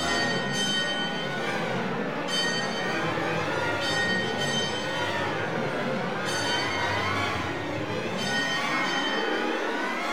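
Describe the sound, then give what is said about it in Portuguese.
A mournful bell rings without stopping, struck at slow, regular intervals every couple of seconds, each stroke leaving a long shimmering hum over a constant rushing background noise. “Ouve-se o som lúgubre de um sino que não para de tocar.”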